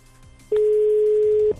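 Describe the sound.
A telephone line tone sounds while a call is being placed: one steady, loud, mid-pitched beep lasting about a second, with quiet line noise before and after it and no talk.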